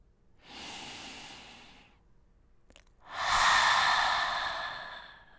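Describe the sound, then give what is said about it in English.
Deep breaths pushed out through an open mouth: two long, airy exhalations, the second louder and fuller than the first, separated by a brief pause with a small click and no talking. “I invite you to take in three deep inhalations. Open your mouth and let them out.”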